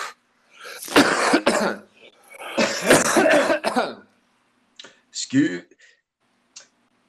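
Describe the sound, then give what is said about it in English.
Someone coughs and clears their throat: two long, harsh, rasping bursts, then a few short, sharp hacks and clicks trailing off into silence. “Excuse me, I had a little Melania piss in my throat. Had to get that out.”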